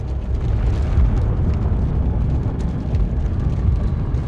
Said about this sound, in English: A pile of debris shifted, then the rocks exploded outward.